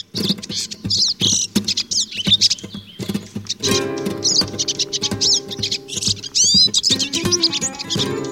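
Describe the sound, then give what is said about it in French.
A North African goldfinch (Carduelis parva), the Maghreb subspecies, sings in rapid high twitters, chirps and trills, with a sustained tonal passage partway through. “chant, particulièrement la sous-espèce qui s'appelle Cardulis parva, le chardonneret qui se trouve au Maghreb et en Espagne, Portugal”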